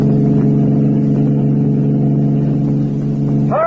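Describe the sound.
A car engine drones steadily during a chase with gunfire at the tires, a loud, low humming tone with stacked harmonics that holds nearly constant before a brief shift in tone at the very end.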